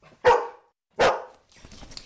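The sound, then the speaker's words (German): A four-year-old female Golden Doodle assistance dog gives two sharp, loud barks spaced less than a second apart, followed by softer, fainter scuffling sounds. “Die Emma ist eine 4 Jahre alte Golden Doodle Hündin. Golden Doodle ist eine Designer-Hunderasse, die ursprünglich aus Australien kommt.”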